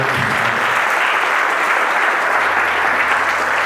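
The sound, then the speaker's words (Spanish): Applause from an audience at a sermon, clapping for a father: a dense, steady wash of many hands that lasts the whole time at an even level, with no talk over it. “¿Cuántos les gustaría darle un aplauso a ese papá?”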